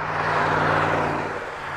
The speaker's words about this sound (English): Semis roll down Highway 20 just outside of the small town of Atkinson in north-central Nebraska.